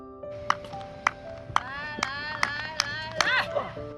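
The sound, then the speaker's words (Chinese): Sharp hand claps set the rhythm for a blind javelin thrower in training. A steady series of claps comes about every half second, and a voice can be heard alongside them. “而指导全盲队员石慧清的标枪投掷，则得通过击掌发出的声音引导队员投掷的节奏。”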